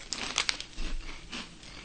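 Crinkling and crunching while someone eats a cheese-flavoured ring snack called Ringu, similar in size to a Funyun: a few short, crisp bursts of crackle and crunch, fairly quiet and with no talk.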